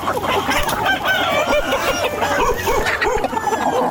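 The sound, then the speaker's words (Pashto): Chickens cluck and a rooster crows from a flock of about thirty hens and cocks kept at the edge of a mud house in Ghazni, Afghanistan. Many overlapping calls continue without a break. “دا غزنی په غیب کلندر سیمه کې شاوخوا 50 کلنې درخانه د خپل خټین کور په یو څنډه کې تر دېش تانې زیات چرګي چرګان ساتلي.”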